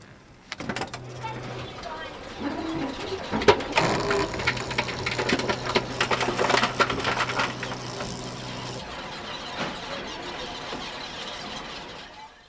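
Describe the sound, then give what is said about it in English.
Supermarket reverse vending machine crushing returnable bottles and cans: a steady motor hum runs under loud, irregular crunching and cracking bursts with squealing mechanical scrapes, then the grinding trails off into a quieter whir. “The sound is made by a machine at a supermarket that eats returnable bottles and cans and dispenses”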